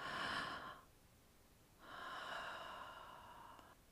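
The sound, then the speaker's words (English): Two long, airy breaths drawn in through the mouth, faint and soft, separated by a short quiet pause, with no talking. “So we're going to breathe in through our mouth and then breathe out through our mouth. So breathe in.”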